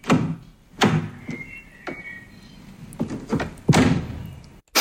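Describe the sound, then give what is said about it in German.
A car door is opened and shut, giving a few heavy thunks and clunks with quieter rattling between them and one last solid thud at the end. No one speaks. “Richtig, eine Autotür.”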